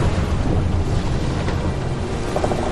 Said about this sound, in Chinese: 起风了，赶紧撤！